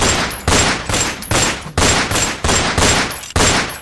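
Volleys of gunfire as soldiers open fire on an advancing crowd near a bridge in 1919, a rapid series of loud, sharp bursts, each decaying quickly before the next, in a slightly irregular rhythm with no voices.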